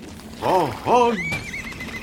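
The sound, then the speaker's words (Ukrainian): Horses of a charging cavalry whinny: two loud, arching neighs in quick succession, then a thinner, higher wavering tail fading out. “Лад захитався, бо дехто стримував коня, мовляв, хай інші скачуть уперед.”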